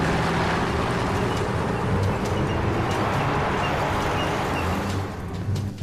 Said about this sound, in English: More armored personnel carriers and military trucks arrive on the scene.